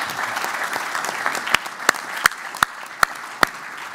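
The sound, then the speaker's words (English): A church audience at Hope Church applauds in a dense, even patter of clapping. In the second half, several sharp, louder individual claps stand out at a roughly regular pace. “Give yourselves a hand.”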